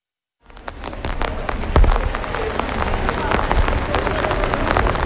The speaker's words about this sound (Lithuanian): Taip, tai dabar mes einame labai lietingą Totorių gatvę